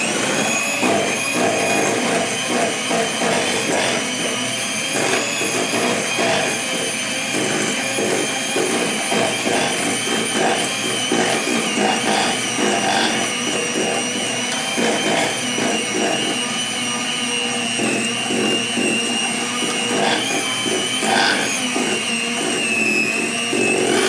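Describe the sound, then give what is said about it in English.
A hand mixer runs at full speed, beating cream with cornstarch for chocolate éclairs. Its loud, continuous motor whine carries steady high overtones and a faint irregular rattle, unbroken for the whole stretch. “I just made the mistake of starting my hand mixer at the full blast, and now I am covered in cornstarch.”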